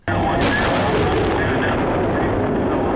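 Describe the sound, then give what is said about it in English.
Multiple launch rocket system artillery firing during an Army live-fire exercise at Rocket Valley, with a sudden, very loud onset that becomes a continuous, heavy roaring rush lasting throughout. “Army Sergeant Timothy Eddington was at Rocket Valley to watch this section leader push his troops during a live fire exercise.”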